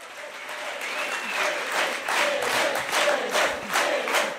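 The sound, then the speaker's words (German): Frenzied applause greets Elif Eralp, winner of the Berlin election, at a special conference of the Left party: sustained, swelling clapping mixed with cheers and shouts from the crowd. “Frenetisch wird Elif Eralp, die Siegerin der Berlin-Wahl, auf dem Sonderparteitag der Linken begrüßt”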